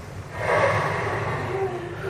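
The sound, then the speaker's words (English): A crowd of audience members takes a deep breath together, making a sustained, breathy rush of air that holds steady for about two seconds. “And everyone take a deep breath.”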